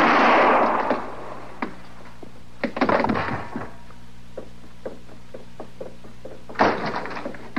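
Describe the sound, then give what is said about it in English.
Gunshots in a Western radio drama ring out as a few sharp, cracking reports spaced irregularly, with a loud burst near the end and fainter knocks scattered between them. “I heard them shots.”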